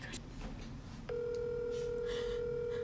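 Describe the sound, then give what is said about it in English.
A phone call is placed on speakerphone, and a steady electronic call tone starts partway through and then holds unbroken to the end, clear and even above a faint background. “I'm calling him.”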